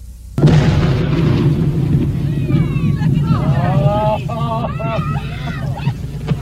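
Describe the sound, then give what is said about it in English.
A whale carcass is blown up on a beach lined with sand dunes and spectators: a sudden loud blast leads into a sustained heavy roar and rumble, with voices rising over the noise afterward. “Our cameras stopped rolling immediately after the blast.”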